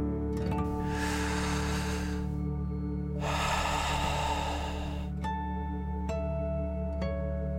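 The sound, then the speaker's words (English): Deep breathing in and out during a guided breathing exercise: two long, airy whooshes rise and fade over a steady soft musical drone, with faint chime-like tones ringing near the end. “let's take three more deep dragon breaths. Deep breath in and out.”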